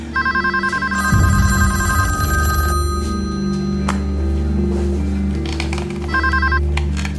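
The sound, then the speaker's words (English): A telephone rings at night with a long-awaited call. A trilling electronic ring sounds at the start and again near the end, over sustained low musical tones. “Then, around 1:30 a.m. local time on Saturday, April 30th, John gets the call he's been waiting for, and police listen in.”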